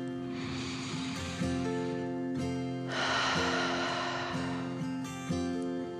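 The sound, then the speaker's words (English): A slow, deep breath in and then out, taken as a calming 'dragon breath' in a relaxation story. Two soft, airy swells of breath sound sit over quiet sustained musical tones. “Odette tucked herself a little deeper under the rock and took another deep dragon breath in and out.”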